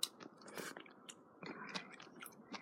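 Faint, soft chewing of nametake mushroom relish, with irregular wet mouth sounds and small smacks and no talking.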